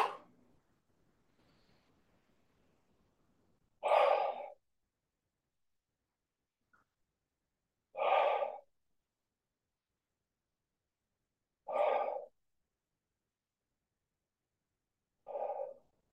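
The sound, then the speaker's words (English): Slow, deep breathing during a relaxation exercise, drawn in through the nose and released through the mouth. Four soft, airy exhales come at steady intervals of about four seconds, faint and alone in near silence. “we'll take five, what I call relief breaths. So those are in through the nose. And then you let it all out through the mouth like it's falling out.”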